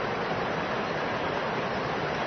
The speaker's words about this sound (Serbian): To se čuje šum Tare, kao jedna vodena, prozračna, zelena molitva.